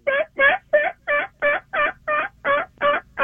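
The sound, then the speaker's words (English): A voice imitates a wild turkey hen yelping with ten short, evenly spaced, raspy notes in a steady, regular rhythm. Each note is clear and fairly loud, with no other sounds. “So I can just do it with my mouth a little bit. So when the hen is yelping,”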